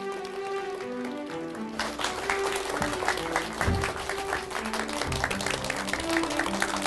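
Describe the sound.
Studio audience applause greets the opening of a Bible question show. Clapping breaks out after a quiet musical opening and carries on loudly and densely, with steady tonal notes continuing underneath.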